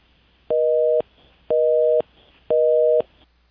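Telephone busy tone after a disconnected phone line: three steady, equal-length beeps, evenly spaced with short gaps of low hum between them. No voices.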